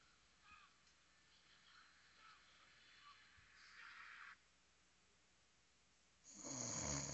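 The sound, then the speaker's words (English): Snoring comes in a few faint, raspy breaths spread through the quiet, the last one louder and longer than the rest. “It got somebody in here snoring.”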